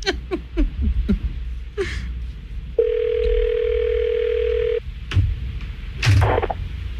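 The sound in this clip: A single long ringback tone sounds on an outgoing telephone call, a steady mid-pitched hum of about two seconds. Short breathy voice sounds and gasps come before and after it.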